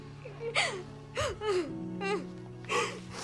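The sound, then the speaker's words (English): A woman sobbing over a body: a few wavering, high whimpering gasps separated by short pauses, fairly quiet. “She sobs over Bobby's body and Wynn gently takes her in his arms.”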